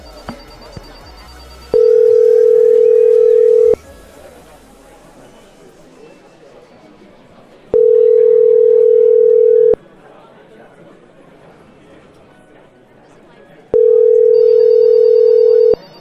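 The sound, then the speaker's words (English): A telephone rings in the background: three steady, even tones, each about two seconds long and spaced about six seconds apart, over a constant low background hiss. “Maybe it's just making our phone ring there in the background.”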